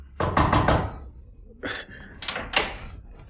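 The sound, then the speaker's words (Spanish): Knuckles rap on a bedroom door at the top of a staircase: a quick cluster of firm, hollow knocks, then a pause and a few more spaced knocks, loud and dry with no voices. “Subió precipitadamente la escalera, llamó con los nudillos en la puerta y...”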